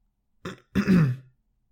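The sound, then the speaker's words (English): A voice acts out a mouse character clearing his throat: a short rasp, then a longer, louder rumbling clearing that trails off, followed by silence. “raised his paw and cleared his throat”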